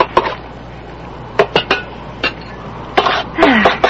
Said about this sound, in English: and yeah, I'll just dish out the chili.